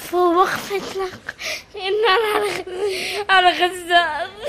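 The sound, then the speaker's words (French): A young girl bursts into sobs, with wavering, high-pitched crying in several strained bursts separated by short catches of breath. “La fillette éclate en sanglots.”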